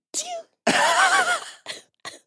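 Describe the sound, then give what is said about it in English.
A stifled, held-in sneeze: a short breathy burst, then a longer strained voiced sound, followed by two quick muffled puffs of air. “If I just like let them go, it hurts my nose. Yes. That's why I hold them in a little bit. Everyone's like, why do you do that? And like, one, I'm cute. Two, it actually hurts to just sneeze.”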